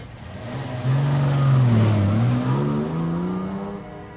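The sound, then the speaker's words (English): A car drives off with a loud, mid-pitched engine roar that swells after about a second and holds steady with a slight waver in pitch, then eases a little toward the end, with nothing else heard. “He just drove off.”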